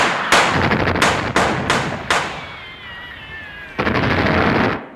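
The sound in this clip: Gunfire volley from a line of soldiers' guns: a few sharp, loud cracks in quick succession, then a longer sustained burst of firing near the end, with no voices.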